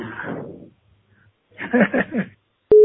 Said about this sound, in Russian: Оставьте, пожалуйста, ваше имя и номер телефона после звукового сигнала.